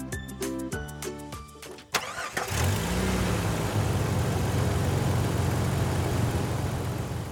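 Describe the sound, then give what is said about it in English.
A safari jeep engine on the Kenyan Mara starts after a couple of seconds of bright musical notes, cranking and catching, then running on as a loud, steady drone. “we're in a safari jeep driving through the incredible Kenya Mara”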